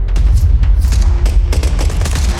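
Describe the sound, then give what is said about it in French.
Bursts of automatic weapon gunfire as soldiers come under attack in a town: many sharp, rapid cracks in irregular clusters over heavy low booms, loud and alone. “Les soldats sont attaqués, des rafales d'armes automatiques.”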